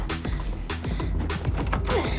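A wooden trunk lid heaved open in a garage creaks and clatters, with several sharp knocks over a dense mechanical rattle that holds a fairly steady loudness.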